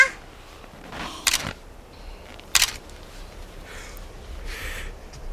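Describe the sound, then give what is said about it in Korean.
A camera shutter clicks twice as a child takes a photo with the camera held up. The two sharp, crisp snaps are clearly spaced over quiet background hiss. “잘 봐. 나 사진 찍는다.”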